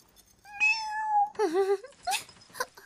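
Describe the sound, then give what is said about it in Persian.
A cat meows several times, loud and alone. The first call is long and high, followed by a wavering lower meow and a couple of short, clipped cries. “ای گربه ی شیطان.”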